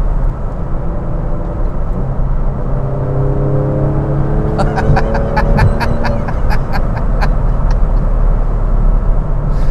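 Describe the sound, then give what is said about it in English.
A car engine revs as it accelerates and climbs through the gears toward 4,000 RPM and about 70 mph, its droning whine rising in pitch, with a run of regular high ticking clicks joining midway. “Fourth gear, fifth gear.”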